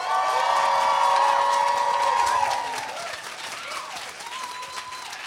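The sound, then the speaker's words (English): Loud applause and cheering from a live audience at a show in Dallas, Texas, with whistles and whoops over dense clapping. The crowd noise stays strong for about two and a half seconds, then eases to a lower, steady level. “Make some noise, Dallas.”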